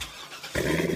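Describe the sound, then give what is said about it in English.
Corvette sports car engine, a low rumble that jumps sharply to a loud, full roar midway through the brief clip. “You hear that? That's the sound of America's only sports car. That's right. It's a Corvette.”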